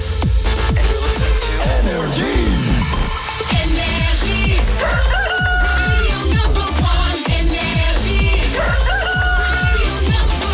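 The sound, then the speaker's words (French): A rooster crows once at 6 a.m. as a morning radio show opens. The short rising-and-falling call sits inside loud, driving, beat-heavy music that plays without a break through the whole clip. “qu'on amène le coq. Il est pile 6h.”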